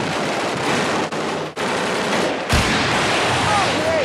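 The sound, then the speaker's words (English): Heavy gunfire inside a house, with bullets ripping through the walls: loud, dense volleys of rapid shots run without pause, and a sharper, heavier blast strikes partway through. “There were bullets ripping through the walls.”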